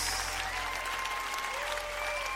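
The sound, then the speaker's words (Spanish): A church audience applauds in worship with dense, sustained clapping, steady and even throughout, over faint held musical tones. “Oh, dale al Señor un aplauso como Él merece.”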